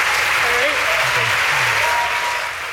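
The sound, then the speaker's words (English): Crowd applause and cheering as a team's presentation closes the night, a dense, steady wash of clapping with shouting voices on top, easing slightly toward the end. “This is the crowd's going wild.”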